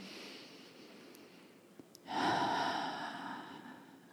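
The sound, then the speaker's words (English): Breathing during a guided relaxation exercise, with a full breath in through the nose and out through the mouth: a soft, breathy rush swells suddenly about halfway through, then holds steady and airy before easing slightly. No talk. “Nice full breath in through the nose, out through the mouth. And again.”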